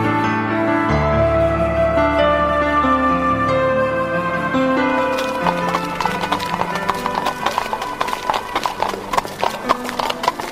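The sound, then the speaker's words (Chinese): Horse-drawn carriage moving off, steady clip-clop of hooves in an even rhythm setting in after several seconds of music and continuing to the end with many sharp hoofbeats. “艾丽查看着希尔比太太出门的马车渐渐远去”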